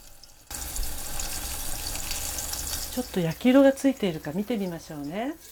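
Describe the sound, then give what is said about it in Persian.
Food fries in a covered pan over a medium flame, giving a steady sizzling hiss that starts abruptly and keeps going while a voice talks over it in the second half. “برای همین در مایتابه رو گذاشته و روی شعله متوسط 2 تا 3 دقیقه تا زمانی که رنگ اون طلایی بشه بپزید.”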